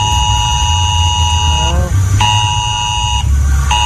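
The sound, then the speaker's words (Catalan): Civil protection emergency alert tone, a strident mass-sent mobile phone alarm tested in the Lleida area: loud, steady high-pitched buzzing tones in three bursts separated by two short gaps, over a low rumbling background. “es tracta d'un enviament massiu d'un estrident missatge que sona així”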